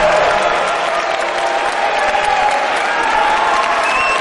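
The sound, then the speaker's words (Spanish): Wedding guests in church pews applaud, a dense, steady patter of many hands clapping that holds at an even level from start to finish. “Miren a los invitados sonriendo que aplauden en sus bancos.”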